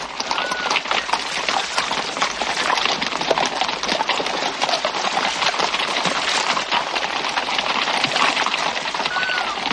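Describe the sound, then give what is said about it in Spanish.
Hooves of mounted guards' horses crossing a bridge in a historical drama, a busy, continuous patter of many hoofbeats with a steady rain-like hiss throughout. “Las barcas pasan bajo un puente por el que cruzan los guardias montados a caballo.”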